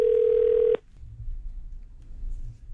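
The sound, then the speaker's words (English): Telephone dial tone on an outgoing phone call: one loud, steady tone that cuts off abruptly after under a second, followed by a faint low rumble. “They got to make a really fun phone call today.”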